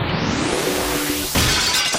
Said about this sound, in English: I hope that you're always reminded as you hear that glass break once again that that is the sound of rules being broken.